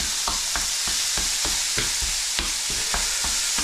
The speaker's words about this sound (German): dann kann das nämlich da ein bisschen vor sich hin braten